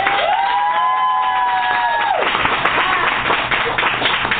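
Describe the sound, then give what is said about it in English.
An audience claps and cheers in a dense, loud, steady wash of applause, with high whoops near the start. “Come on, clap your hands.”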